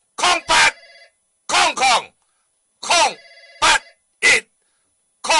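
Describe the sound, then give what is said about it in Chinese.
A telephone rings in several short, bright bursts, mostly in uneven pairs, with a sustained ringing tone lingering after some of them. The pattern is loud and choppy, with silent gaps between the bursts. “哎呀，来你电话行咧哈。”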